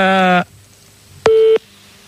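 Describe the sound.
A telephone ringing tone sounds on a call: a buzzy, harmonic-rich beep, a pause, then a shorter, steadier and purer tone.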